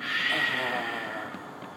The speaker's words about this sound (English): let's hear you take a really good exhale. So we'll inhale through the nose. Exhale through the mouth.